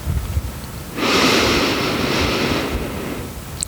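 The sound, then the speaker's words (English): A slow inhale through the nose during 4-7-8 breathing: a soft, even, breathy rush that starts abruptly, holds steady for about a second and a half, then fades, alone without talk. “Inhale through your nose for a count of four.”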